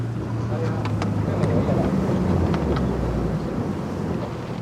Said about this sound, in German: Am frühen Nachmittag fahren wir endlich mit den Tourführern im Schlauchboot los.